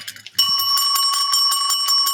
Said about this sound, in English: So why don't you hit that bell? Hold on. I didn't put the bell next to me